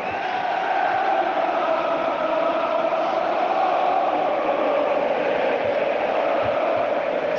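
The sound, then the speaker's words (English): Stadium crowd roaring during Newcastle United players' end-of-season lap of honour, a continuous, even, muffled wash of noise with no distinct peaks. “This sound you can hear now is the Newcastle United players doing their end of season lap of honour, which was really deserved.”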